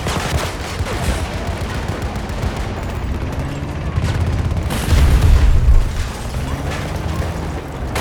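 Rapid gunfire in a first-person shooter video game: dense, loud bursts with mechanical clatter throughout, building to a heavier rumbling boom around the middle before the steady shooting continues.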